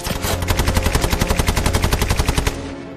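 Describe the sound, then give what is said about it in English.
A Bren light machine gun fires from a window in one long, rapid, evenly spaced stream of many sharp, loud shots that stops abruptly, leaving a brief fading ring. “The Bren gun opens up again from the window.”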